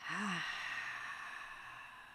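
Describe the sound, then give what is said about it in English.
A whispered "ha" breathed from the back of the throat: one soft, airy exhalation with a brief voiced onset, faint and unvoiced, trailing off slowly into quiet breath noise. “Whisper the word, ha. Listen to where this breath originates in your throat. We can do that again.”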